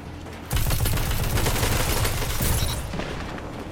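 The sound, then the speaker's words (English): Gunfire in the video game Destiny 2 erupts after a brief silence into dense, continuous automatic fire with heavy booming low thuds. The barrage stays loud to the end, with a short surge near the close. “But he doesn't even realize he's getting shot from the right. What the heck? How does he not realize he's getting shot from the right?”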